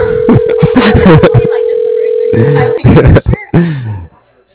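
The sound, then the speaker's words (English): A phone ringing out on a call: a steady, low electronic tone lasting a few seconds under people talking, then voices continue without it. “I don't know if this is, has a voicemail or not. That's enough rings.”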